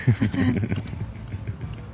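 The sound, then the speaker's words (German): Crickets chirp in a steady, continuous high trill that runs evenly through the whole stretch, with a brief low rumble at the start and no voices. “Hörst du das? Der verrückte Grillen, Alter, der wird auf abgehen.”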